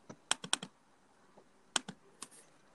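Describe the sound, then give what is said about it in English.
Clicking keys on a MacBook keyboard: several quick, faint taps in short clusters, separated by brief pauses, with no talking. “No, that was just me clicking my MacBook, bro.”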